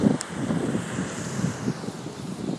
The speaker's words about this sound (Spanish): Y hace virujillo, la verdad. Sopla el viento